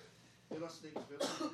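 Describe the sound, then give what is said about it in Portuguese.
Quiet coughing from a person who is sick, with a few rough bursts spaced through the moment and some voiced, throaty sound mixed in. “Mas tu ainda tá tossindo?”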